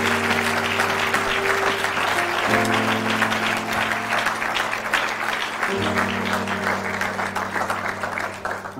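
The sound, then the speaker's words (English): Congregation applauding at a Sunday morning church service, a dense, steady wash of clapping that holds at an even, loud level for the whole stretch without pause. “Let's give Brother Isaiah Brooks a big hand this morning.”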